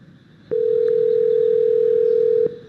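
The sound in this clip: A telephone ringback tone sounds as a call is placed to a small restaurant: one long, even, steady beep lasting about two seconds over a faint background hiss, then it stops.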